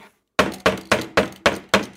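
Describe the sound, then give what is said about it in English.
A latrine door is bashed violently: after a brief silence, six heavy, booming thuds land in a steady rhythm, each with a sharp attack and a short decaying rumble. “As the door is bashed upon and then violently swung open.”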